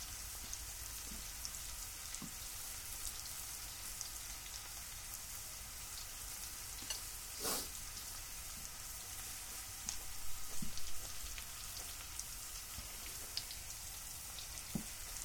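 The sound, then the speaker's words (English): Food frying in a pan gives a faint, continuous sizzle. The crackly hiss is dotted with scattered small pops and has a brief louder flare partway through. “And getting such a nice cook to it. Yeah. I flipped this one over a little bit because there was a bit of it that didn't quite fully cook.”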